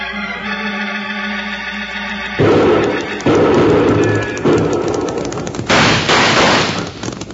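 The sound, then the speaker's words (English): Rifle gunfire erupts in several loud, rough bursts of rapid shots, each burst dense and crackling, separated by brief gaps. “Watch the rifle flashes. Now they've stopped shooting.”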